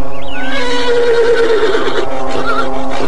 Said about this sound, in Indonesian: Kuda putih itu meringkik, tapi sedikit pun ia tidak beranjak dari tempatnya.